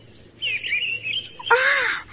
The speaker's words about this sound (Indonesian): Aku senang berada dalam hutan ini. Karena aku dapat menikmati kesegaran udara hutan, serta mendengarkan merdunya kicau berbagai macam burung.